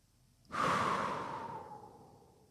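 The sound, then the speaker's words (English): A person releases a full breath during a calming breathing exercise: one long, airy exhale that rushes in abruptly, then slowly softens and fades over about two seconds, with no talking. “When you're done speaking those words, release all of your breath.”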